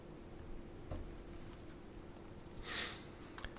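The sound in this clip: Faint scratching of a pen writing on paper over a low background hum, with a brief louder stroke near the end.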